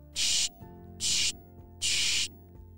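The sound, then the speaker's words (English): Three sharp, hissing bursts from a spray bottle of Bubbleberry soap, misted onto sports equipment in a backyard, arrive evenly spaced, each about a third of a second long, with quiet gaps between. “He sprayed a few sprays of the Bubbleberry Soap.”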